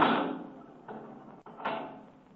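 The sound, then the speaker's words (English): A heavy steel door being shut and locked: a few dull knocks and a sharp metallic click, moderately loud, with no voices. “You can lock that steel door, Kelvin”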